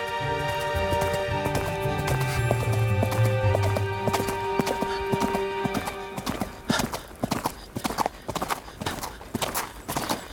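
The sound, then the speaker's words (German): Horse hooves clip-clop in a steady walking rhythm along a deserted, winding path on a hot day. At first the many hoofbeats sit under a sustained tonal backdrop, then they ring out crisp and alone in the second half. “Ich ritt den verlassenen, sich schlängelnden Weg entlang.”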